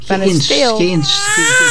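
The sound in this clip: A young baby boy crying: a loud run of short wailing bursts in quick succession, each cry bending down in pitch, with a strained, whining tone throughout.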